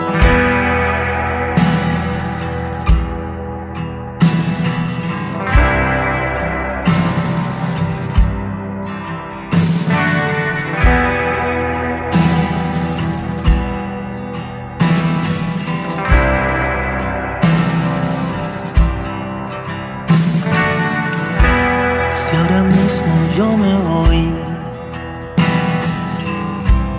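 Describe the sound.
A Spanish-language song plays loud and alone, with a steady pulsing beat that accents roughly every couple of seconds beneath dense sustained instrumental layers.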